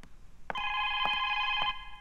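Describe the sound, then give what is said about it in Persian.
A telephone rings in one sustained bell-like electronic trill of about a second, with sharp pulses at its start, middle and end, fairly loud over a quiet background. “باشین که برم تلفن رو جواب بتون ببینم کی هست”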